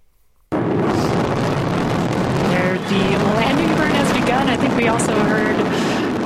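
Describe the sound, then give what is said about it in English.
A SpaceX Falcon 9 rocket booster roars as it comes back to land after launching four astronauts toward the International Space Station. A loud, deep rumble starts abruptly, continues without a break, and has voices audible over it. “We can hear it. There it is. The booster coming home because they reuse the boosters now.”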